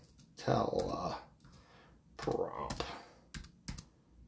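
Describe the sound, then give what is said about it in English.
Slow typing on a computer keyboard comes in a few bursts of clattering keystrokes with single clicks between them, while a voice speaks. “I don't type very fast.”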